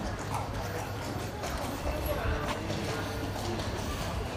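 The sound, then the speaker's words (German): Horse hooves clip-clop as a horse-drawn carriage passes, a steady patter of hoofbeats within continuous background noise and murmured voices. “Ah, es kommt jetzt auch Kutsche.”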